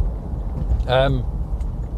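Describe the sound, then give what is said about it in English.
A steady low rumble of a car being driven in the morning, heard from inside on the way to the garage for repair because it is broken. A voice speaks briefly over the constant drone. “So what am I doing at 8:15 in the morning on a Wednesday, driving along in the car?”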